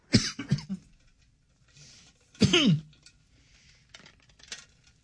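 A person clears a dry throat in two rough, voiced bursts separated by a pause, with a few fainter rasps and small noises between and after.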